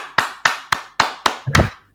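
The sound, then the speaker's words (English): Hands clap in a steady, even rhythm: several sharp claps about a quarter second apart, the last one fuller and smeared. No talking is heard. “I'm clapping because you're actually somebody who's different.”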